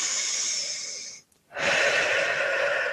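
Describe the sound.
Deep breathing during a relaxation exercise: two long, airy, steady breaths separated by a brief silent pause, moderately loud and without talk.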